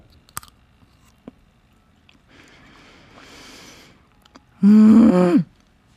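Someone eats a rich, moist chocolate gateau made in a microwave. Faint clicks and quiet chewing come first, then a loud, pitched hum of enjoyment.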